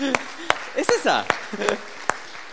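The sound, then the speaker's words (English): A church audience claps in a steady beat of sharp, evenly spaced hand claps, with a voice talking between the beats. “Can we just clap for everybody that's doing something this morning that they're not supposed to be doing this morning?”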